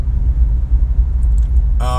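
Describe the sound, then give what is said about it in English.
Low, steady rumble of a car driving, heard from inside, a deep droning hum that pulses slightly, with a voice starting to speak right at the end. “For some reason, today when I'm driving around, I feel like I'm driving out of town, but I'm not.”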